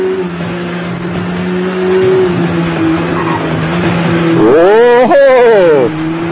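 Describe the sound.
Engine of a Honda VTR superbike in a racing video game: a steady, buzzing drone, then a loud surge of revving near the end with sharply rising and falling pitch, plus tyre noise.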